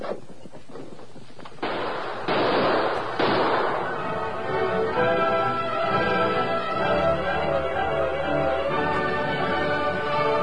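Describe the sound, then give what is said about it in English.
Gunfire from a western shootout: a few sharp cracking shots ring out in the opening seconds, then orchestral music takes over. “Keep up that gunfire.”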